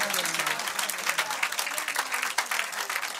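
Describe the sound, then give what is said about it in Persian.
Applause at a gathering, a dense, steady run of clapping throughout, with voices heard over it. “یه دست قشنگ بزن”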